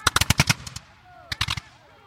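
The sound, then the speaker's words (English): Rapid bursts of gunfire as a ship's outgunned crew fires grapeshot at attacking British boats: a quick run of sharp, loud shots, a brief lull, then a shorter second burst. “The outgunned but brave crew of the Seahorse quickly begin firing deadly grapeshot at their British assailants.”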